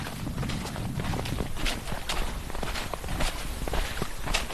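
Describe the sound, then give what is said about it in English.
Footsteps in winter rubber boots move along a shoreline, many steady, evenly paced steps at a moderate level with a rough, gritty texture. “I'm walking along the shoreline now, looking for a good spot to set up.”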